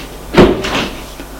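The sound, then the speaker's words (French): An unlocked door being opened quickly, a short wooden clunk followed by a softer second knock within about a second. “il court vers la porte. Elle n'est pas fermée. Il sort.”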